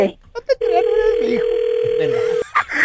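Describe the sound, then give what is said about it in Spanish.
Telephone line ringing after a number is dialed: a single steady, mid-pitched ringback tone held for nearly two seconds, with people talking over and around it. “vamos a marcarle aquí el número que nos diste. Ahí le estamos marcando, mi amor, a tu marido”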